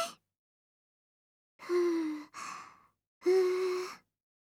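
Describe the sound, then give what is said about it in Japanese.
Breathy, voiced puffs from a person blowing to cool hot food on a fork before feeding someone, three sigh-like blows: two close together, then one more after a short pause. “ふぅ、はい、あーん。どう？おいしい？暑かったら言ってね。次はもっと長くフーフーしてあげるから。”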